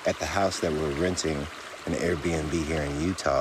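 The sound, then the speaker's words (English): A river flows steadily beside a house, its soft, constant rushing water noise lying faintly beneath a man's continuous speech. “That's a river that I'm sitting next to as I'm recording this podcast.”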